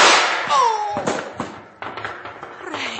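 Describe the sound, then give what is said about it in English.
Gunshots in a radio drama shootout: several sharp, cracking shots fired in an irregular burst, each a quick bright snap over a noisy, busy background. “But Stacy took one of Lin Wan's bullets. Yeah, he took it all right. Right between the eyes.”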